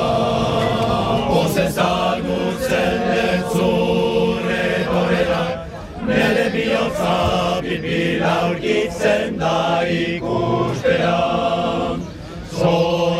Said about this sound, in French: Alors d'abord, ce chant que vous entendez, c'est un chant de bienvenue, le tout premier que ce chœur a entonné dans les rues de Bayonne lorsque je les ai retrouvés.